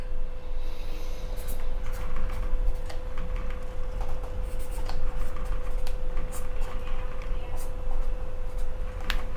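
Handwriting on paper: soft, scratchy pen strokes and light ticks run throughout over a constant tonal hum and steady background noise.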